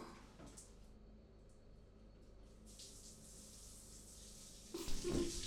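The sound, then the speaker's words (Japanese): Hot water rinsing soap foam away: a faint, steady trickle of running water that swells into a louder gushing splash near the end. “泡は流していくよ。じゃあしっかり流しとかないと後で痒くなっちゃうかな。”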